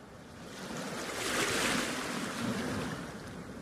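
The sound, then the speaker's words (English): Ocean waves crash on the eroding Bristol Bay shoreline of western Alaska, a steady broad roar of surf that swells to a peak midway and then eases slightly, with no voices. “The crashing waves of Bristol Bay are affecting much more than the fishing vessels out on the water.”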